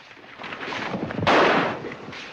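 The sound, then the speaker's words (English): Gunshots ring out in an ambush on outlaws inside a bank: one sharp, loud blast stands out from a busy, noisy background. “More shots ring out as an ambush is launched on the James gang.”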